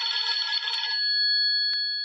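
A telephone rings in one short buzzy burst, then settles into a clear, steady high tone that holds to the end. A faint click comes near the close.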